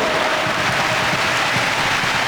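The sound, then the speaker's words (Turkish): Applause from football fans in a stadium during a Norway match: a dense, unbroken wash of clapping at steady loudness throughout, with no distinct voices standing out. “Norveç'in baskısı, alkış aldı taraftarından.”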